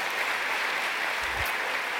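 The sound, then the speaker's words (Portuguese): A church audience applauds Jesus during a Portuguese-language service, producing a steady, dense wash of clapping with no break and no voices over it. “Você pode aplaudir a Jesus aí mais uma vez?”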